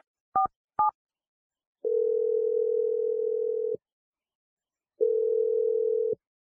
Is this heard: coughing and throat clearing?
no

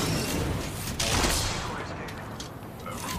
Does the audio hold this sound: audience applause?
no

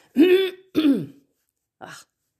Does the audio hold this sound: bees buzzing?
no

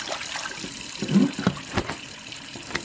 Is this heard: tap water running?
yes

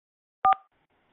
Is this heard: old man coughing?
no

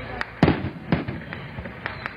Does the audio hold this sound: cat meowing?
no

